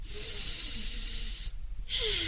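A deep breath blown out as if extinguishing a candle, in a children's program: a long, steady, breathy hiss, a brief pause, then another burst of breath.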